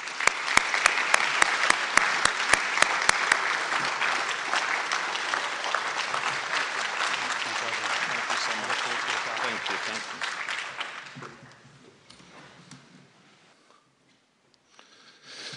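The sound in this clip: An audience applauds to welcome a rabbi to the stage. Sharp claps open into sustained, full clapping for about eleven seconds, which then thins out and dies away to near quiet.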